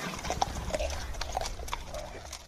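Horse hooves clip-clop steadily as a rider comes out of the mountains in the Idaho backcountry, a brisk run of many sharp hoofbeats at an even rhythm.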